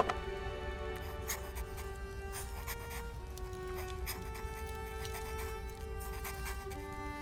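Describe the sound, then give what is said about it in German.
Pen or pencil strokes sketch a signet ring pattern, a star with a rose inside, on paper: faint, irregular scratching strokes come and go over a quiet, sustained tonal background. “Warten Sie, ich zeichne es Ihnen auf.”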